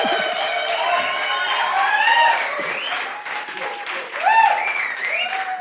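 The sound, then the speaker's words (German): Audience applause at a live recording in Winterberg: dense, steady clapping throughout, with voices whooping and calling out over it. “Ihr dürft gerne klatschen. Ja, ihr dürft gerne Geräusche machen.”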